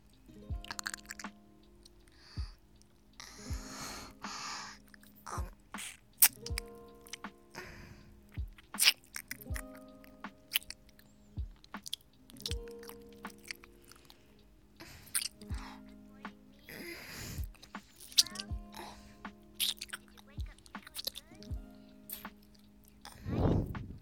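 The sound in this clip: Chewing and eating food, with many wet, crunchy bites and squishy mouth sounds that keep up steadily over the whole stretch, mostly alone without talk.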